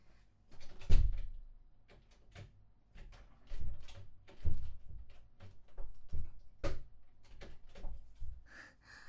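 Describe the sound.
A door locked from the outside gives a string of irregular, faint clunks and rattles with uneven gaps between them. No voices are heard.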